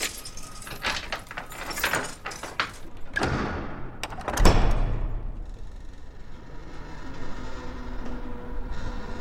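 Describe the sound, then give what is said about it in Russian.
Keys jangle and a door opens into a large, ivy-covered two-storey house, with a clattering metallic rattle, a heavier thud near the middle, and then a softer, lingering hiss. “Открывает дверь, медленно заходит в дом.”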